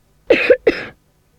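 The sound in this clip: Two loud coughs in quick succession from a sick person with a stomach ache, harsh and breathy, alone with no talking.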